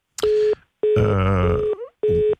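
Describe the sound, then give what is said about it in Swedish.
After a phone caller disconnects, a busy tone sounds as three steady, mid-pitched beeps separated by short gaps. The middle beep lasts longer than the other two. “Någon bröt samtalet, vad synd.”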